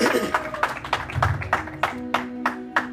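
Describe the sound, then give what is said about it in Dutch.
A church audience claps their hands in praise of God: a steady run of many sharp, evenly spaced claps, with sustained tones and voices underneath. “And of course, clap your hands for the Almighty God.”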